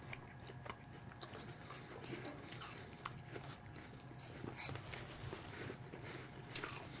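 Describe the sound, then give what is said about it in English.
Crisp chewing of a Granny Smith apple eaten with garlic, a steady run of faint, wet crunching and biting that continues throughout without talk. “That was Granny Smith apple. Mmm. Still mostly garlic Granny Smith, but it has a nice sweetness to it.”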